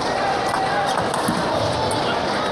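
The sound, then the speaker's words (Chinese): Table tennis serve in a professional match, the ball tapping sharply a few times against a steady wash of background noise. “凯曼发球”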